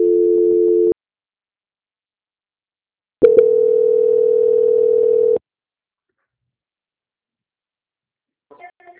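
Telephone tones play during a call transfer on a bank's phone line: a short steady tone, a pause, then a longer steady tone of about two seconds, followed by silence and a few faint clicks.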